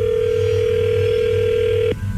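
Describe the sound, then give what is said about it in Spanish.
A telephone ring tone sounds while a call is redialed: a single steady, unbroken mid-pitched tone holds for about two seconds and then cuts off, over a low background hum. “A ver, permíteme, vamos a marcarle de nuevo y tú le contestas.”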